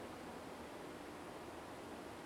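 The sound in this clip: A waterfall's steady, even rush of falling water, faint but continuous throughout, with no voices or other distinct sounds.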